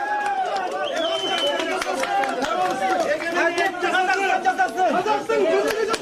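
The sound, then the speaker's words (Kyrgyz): A crowd noisily greets a woman as she leaves a courtroom. Many voices overlap in loud, excited chatter that runs without a break from start to finish. “Сот залынан чыгып бараткан Сайрагүл Сабытбайды дуулдап тосушту.”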